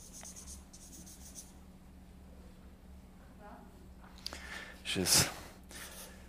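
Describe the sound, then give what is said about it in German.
Pen writing on paper gives faint, scratchy strokes in short bursts, with a louder scraping stroke near the end, while a voice speaks. “Ja, jetzt habe ich gerade reden und schreiben miteinander, und das geht eigentlich nicht.”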